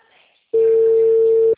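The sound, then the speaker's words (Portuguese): Ringback tone on an outgoing phone call: a single steady, mid-pitched electronic tone that sounds clearly for about one second on its own, with quiet background before it. “Tô tentando ligar pra ela, tá chamando.”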